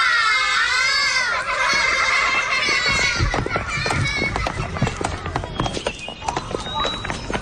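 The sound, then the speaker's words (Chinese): Children playing on newly donated swings: high, shrill child voices ring out first, then give way to many quick clattering knocks and thumps, with more excited kids' voices mixed in toward the end. “同学们，谢谢叔叔给你们送来的秋千， 谢谢叔叔， 好，好，孩子们，荡秋千注意安全啊！”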